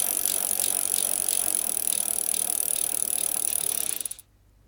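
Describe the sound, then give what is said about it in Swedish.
Tombola wheel spinning with a rapid, continuous ratcheting clatter of clicks that holds steady for about four seconds, then slows into a few separate clicks and stops, leaving near silence. “Dra tombolan får vi se var vi hamnar.”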